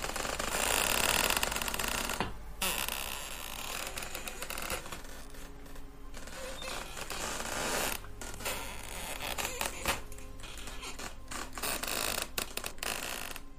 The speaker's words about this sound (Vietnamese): Tôi nghe thấy có tiếng ken két vọng ra ở đâu đó. Dường như là tiếng đẩy gỗ cứ vặn vẹo, nghe đến rợn cả người.